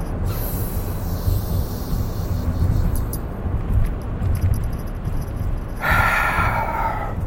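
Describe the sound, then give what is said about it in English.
A deep breath, heard as a long, steady rush of breathy air that holds at an even loudness throughout, with a brighter burst of air near the end. “I don't think my deep breaths are as deep this week as they were last week or the other day, but They're good.”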